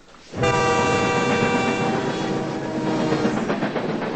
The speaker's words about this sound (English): Outside, a train speeds down tracks.